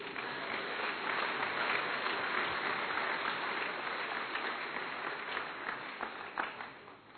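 Congregation applause during a French-language sermon: a dense, steady patter of clapping that holds throughout and thins slightly near the end.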